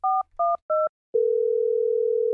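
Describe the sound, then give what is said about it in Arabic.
Telephone tones on a long-distance call between Stockholm and Iceland: three short, clean electronic beeps in an even rhythm, then a long, steady, unbroken tone that runs to the end. “لقد كانت مكالمة استثنائية بين ستوكهولم وأيسلندا. أمينة سر جائزة نوبل ترفع السماعة”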